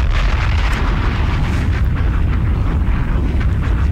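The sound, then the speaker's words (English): Explosion sound effect of bombs: a dense, loud, low rumble fills the whole clip without a pause, with no separate blasts standing out. “Bombs!”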